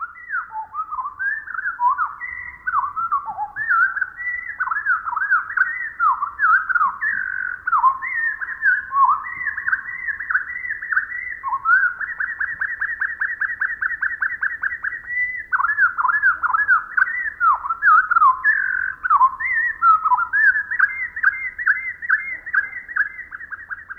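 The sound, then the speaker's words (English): A Pacific wren's song, slowed to quarter speed, becomes a long string of clear whistled notes that slide and warble. Midway comes a stretch of rapid, evenly repeated notes, then more varied phrases, loud against near silence. “naturalist Rosemary Jealous writes, even the most extensive bird song seems so brief to us. Let's listen again, but this time with the song slowed down to 1/4 speed.”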